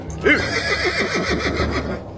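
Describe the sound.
A horse neighing in a cave: a sharp onset gives way to a long, quavering whinny with rapid wavering pitch, loud and sustained for nearly two seconds before fading.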